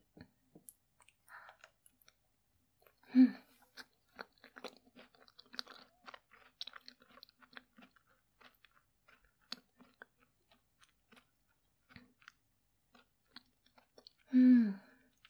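Someone chews a sweet with chestnut inside: faint, soft crunching and wet clicking mouth sounds scattered irregularly throughout, with two brief louder bursts standing out.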